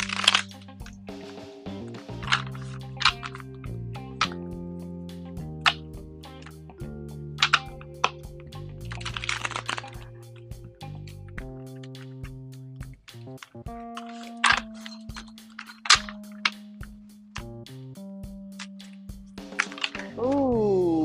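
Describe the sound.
New, stiff tarot cards being shuffled: a long run of sharp clicks, snaps and slaps scattered irregularly over about twenty seconds, with soft sustained tones in the background.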